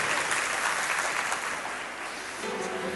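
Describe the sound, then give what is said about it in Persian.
Audience applause at a seminar, a dense, steady wash of clapping that holds for about three seconds and eases slightly in volume partway through. “مرسی یه دست براش بداریم دیگه”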